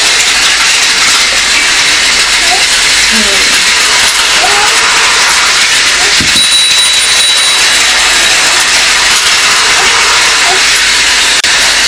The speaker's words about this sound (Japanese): あ、新幹線来てよ。